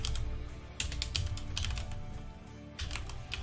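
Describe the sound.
Fingers type on a computer keyboard in rapid, uneven bursts of clattering keystrokes over a low background rumble.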